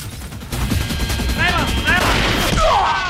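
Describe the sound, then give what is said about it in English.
Gunfire from pistols shot through a window at people in a burning room, a tense burst of shots set against a loud, dense background of fire and action noise. “As the flames lick around the room, another gunman reaches in through the window to fire at them.”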